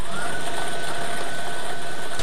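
Lottery draw machine spinning the balls for an evening Pick 2 draw, a continuous loud, whooshing air roar that stays even throughout, with no separate clatters standing out.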